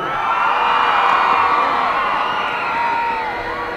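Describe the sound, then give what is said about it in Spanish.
Loud applause and cheering from an audience celebrating birthday greetings: a dense, steady roar of clapping and voices with scattered whoops that holds from start to finish and eases slightly at the very end. “Un aplauso.”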